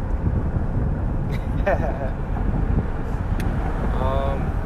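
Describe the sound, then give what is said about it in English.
Wind buffeting an outdoor microphone makes a dense low rumble throughout, with people talking faintly under it. “Oh, it might not pick up because of the wind.”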